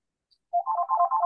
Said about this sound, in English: And that's my phone ringing in the background, so I apologise for that.